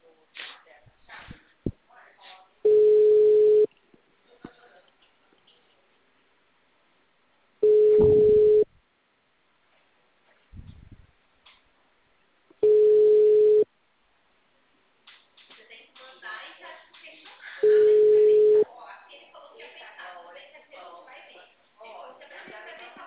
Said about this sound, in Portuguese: Chamando.